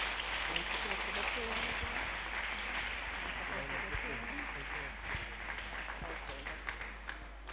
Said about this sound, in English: Put your hands together and make welcome our speaker for this evening, Apostle Wayne Palmer.